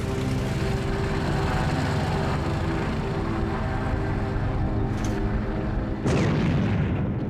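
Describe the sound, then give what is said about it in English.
Heavy coastal artillery guns at Dover firing in wartime, one deep boom bursting out near the end over a steady low droning rumble. “12:19, the Dover guns fired for the first time in the war.”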